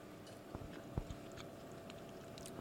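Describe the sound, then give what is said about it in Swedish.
Wet chewing and biting from a mouthful of a big spoonful of unsalted, unpeppered pesto, a soft continuous mouth sound with a few sharper bites standing out and no talk. “Okej, nu tar jag en stor skedfull.”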